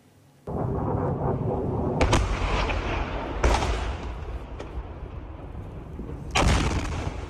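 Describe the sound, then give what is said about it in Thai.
Violent explosions from an Iranian missile striking an air base in Jordan: a sudden heavy blast opens a sustained rumbling roar, and further loud booms burst through it at intervals. “คลิปวิดีโอที่เผยแพร่ออกมาเมื่อวานนี้เปิดเผยเห็นนาทีที่ขีปนาวุธของอิหร่านพุ่งเป้าโจมตีฐานทัพอากาศในจอร์แดนก่อนจะเกิดการระเบิดอย่างรุนแรง”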